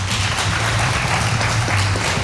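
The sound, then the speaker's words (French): Applause from a studio audience at the close of a French radio show, a steady dense wash of clapping that stays loud and even throughout with no voices over it. “On applaudit tout ce petit monde.”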